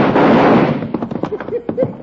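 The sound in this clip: A gunshot in an old western hold-up scene: a loud blast with a long, rumbling decay, followed by a few brief voice sounds.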